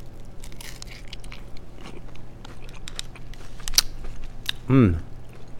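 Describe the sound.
Crisp crunching of a bite into a taco with vegan ground filling, salsa, cilantro lime crema, fresh jalapeno and cilantro. A short burst of crunch and chewing comes near the end over a low steady background murmur.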